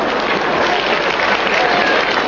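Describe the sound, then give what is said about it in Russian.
An audience applauds: dense, steady clapping from many hands that stays loud and even throughout, with no pauses. “Вот мне нравится, что вы аплодируете, это значит, вы уже гордость начали за наших испытывать.”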